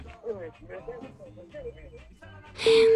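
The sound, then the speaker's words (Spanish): A phone call to a call-in line dropping: muffled speech over the line gives way abruptly to a burst of noise and a steady, loud electronic tone. “se fue la llamada”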